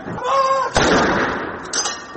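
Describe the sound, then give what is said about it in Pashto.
Artillery guns fire a salute at a royal military funeral at Windsor Castle with British armed forces troops lined up. Two heavy booms each roll out into a broad, rumbling decay. “د شاهزاده فلیپ د جنازې په مراسمو کې د برتانیا د وسلوالو ځواکونو سرتیری په منظمو لیکو کې ودرېدل او د درناوي لپاره د توپونو ډزې وشوې.”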